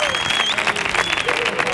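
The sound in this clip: Applause and cheering from the audience at a live Andalusian comedy show, a dense, loud, continuous wash of clapping and cheers that holds steady for under two seconds.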